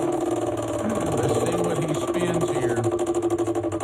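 A prize wheel spinning and slowing down during a game: a fast, steady rattle of clicks that pulses more slowly toward the end.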